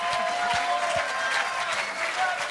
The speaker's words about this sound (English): Por favor, levántense, den aplausos y gritos a Dios.